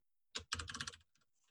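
Typing a web domain on a computer keyboard: one quiet keystroke, then a quick run of soft clicking taps lasting about half a second, with no speech.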